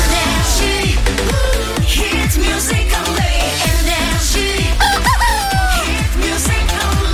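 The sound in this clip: A rooster's crow rings out over loud music with a steady, pounding beat, with no talking.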